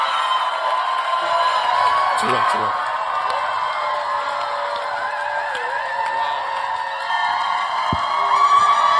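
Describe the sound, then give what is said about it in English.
A church audience cheers and claps to welcome a bishop to the pulpit. The crowd noise is loud and sustained, with shouts and whoops, and voices mixed in. “If you're excited as I am, make some Holy Ghost noise. Clap your hands as we welcome to the pulpit Bishop Richard Ayer.”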